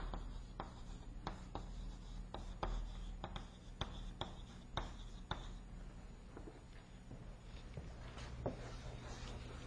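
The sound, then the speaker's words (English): Writing strokes on a board as triangles are drawn: many short scratchy taps and scrapes in an irregular rhythm, faint and alone, without talk. “So you can start drawing triangles. You can draw all kinds of triangles, right? But there are some that are special. And let me draw a couple of them.”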